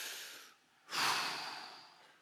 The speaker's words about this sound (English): Would you take just a big breath and then let it out? Go ahead, everyone.